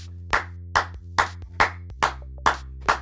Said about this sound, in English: round of applause to you.